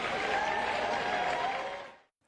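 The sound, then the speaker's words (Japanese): Crowd applause outside Downing Street as Prime Minister Burnham arrives: dense, steady clapping at an even level that fades away just before the end. “バーナム首相が今首相官邸前に到着しました。集まった人たちからは大きな拍手が送られています。”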